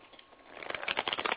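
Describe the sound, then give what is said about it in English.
Cards being shuffled and pulled from the deck for a reading: a brief, faint flurry of many rapid papery flicks that grows busier toward the end. “I don't look at the cards to pull them. I allow the right card to show up. Or in this case, it will be cards.”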